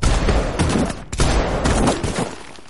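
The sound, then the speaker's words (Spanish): Rifle fire aimed at a person in an action thriller scene: a few loud, sharp gunshot blasts in quick succession, separated by brief gaps. “Chaos le dispara.”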